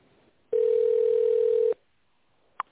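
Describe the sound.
Telephone ringback tone during a call transfer to a contact centre: a single steady, mid-pitched tone lasting just over a second, followed by a short, sharp click.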